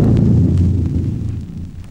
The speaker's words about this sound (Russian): Батарея прицел! Подавить! Батарея прицел! Подавить! Огонь! Огонь!